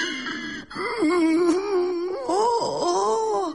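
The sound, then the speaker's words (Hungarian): A man crying, wailing and moaning in a wavering voice whose pitch bends up and down, with sobbing catches between sustained cries and no other sound. “Ez az ember meg miért sír?”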